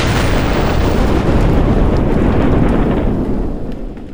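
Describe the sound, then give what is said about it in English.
A large cannon bursts apart as it is fired near Mount Vernon: a deep, thunderous blast that becomes a long, heavy rumbling roar and tapers off toward the end, with no voices. “The Peacemaker exploded, creating a gruesome spectacle.”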